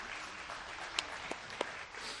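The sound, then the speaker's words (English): Soft applause from a church audience clapping for fourteen baptisms held the previous Sunday: a faint, even patter with a few sharper claps standing out. “We had 14 people get baptized here last Sunday. It was awesome. You can clap for that.”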